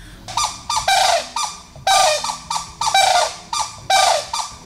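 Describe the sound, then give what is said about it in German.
A bird pair trades a short duet at the nest during changeover: loud, harsh, harmonic calls repeated in quick rhythmic succession, some longer and some clipped, with nothing else audible. “Das war der Wachwechsel am Nest und dabei haben sie nochmal gesagt, ah, du auch hier, haben nochmal sich gegenseitig bestätigt und einen kurzen Gesang aufgeführt.”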